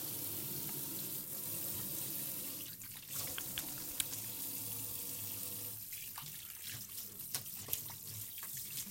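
Water runs from a tap while hands are washed with soap before cooking: a steady, even rush of splashing water that holds at one level throughout, with a few small drips and splashes standing out.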